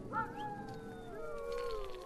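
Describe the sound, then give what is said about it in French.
Sled dogs howl in an isolated Greenland village, a few faint, overlapping high-pitched howls that slowly slide downward in pitch and drift on together for a couple of seconds. “deux villages isolés où règne le plus pur des silences, tout juste brisé par l'aboiement des chiens de traîneau.”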